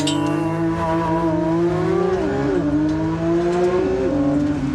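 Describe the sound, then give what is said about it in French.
Sports car accelerating hard from a launch control start on a timed lap, engine loud and alone, pitch climbing steadily and dropping back at a few gear shifts before climbing again. “On va faire tirer en launch control. Allez, je te le fais le décompte. 3, 2, 1, go !”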